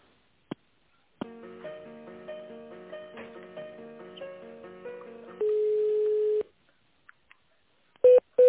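Telephone tones while a school receptionist transfers a call: a click, a long stretch of stepped electronic hold melody, a steady sustained tone, then scattered clicks and two short loud beeps.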